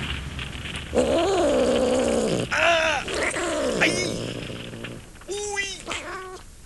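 A cat meows from inside a bag: several drawn-out, wavering cries with strained, groaning tones, some long and rising and falling, others short and sharp.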